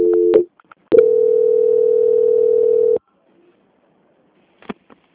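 Telephone line tones during a call transfer: a brief beep, then a steady tone of about two seconds, followed by silence and a couple of faint clicks.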